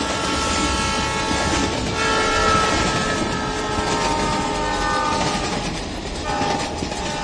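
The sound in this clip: A train passes along railway tracks with a loud, continuous rumble and rattling wheel noise. A sustained horn tone runs through the roar, which stays dense and heavy throughout.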